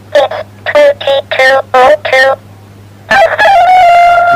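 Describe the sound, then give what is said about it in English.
A talking alarm clock plays an electronic rooster crow: a string of short, loud, buzzy harmonic calls, then a longer, drawn-out wavering crow after a brief pause. “It's supposed to be a rooster, that is. Sounds like my mum, that does.”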